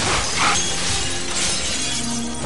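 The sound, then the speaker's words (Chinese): Glass window shattering as a person crashes through it at a second-floor window in a factory workshop. A loud, dense and continuous spray of breaking, scattering glass fills the whole moment, with no voices. “就像是一头白色的小鹿一般，高昂着头撞向了玻璃。”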